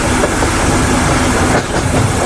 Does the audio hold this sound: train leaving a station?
yes